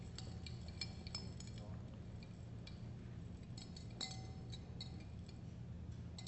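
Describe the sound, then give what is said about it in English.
Glassware clinks as a heat-producing exothermic chemical reaction is quickly stirred. Many faint, light taps and chinks sound at an uneven, brisk pace over a soft, steady background hiss. “This reaction will produce heat. Very good. And Stephen, just go ahead and give it a nice quick stir.”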